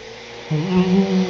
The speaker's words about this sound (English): back to vacuuming. Back to vacuuming.